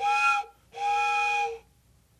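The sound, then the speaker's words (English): An old train whistle is blown in two steady, piercing blasts, a short one followed by a longer one, heard alone with a brief gap between them. “Hey, is that what I think it is? Is that my old train whistle? It makes me feel as if I'm 7 years old again.”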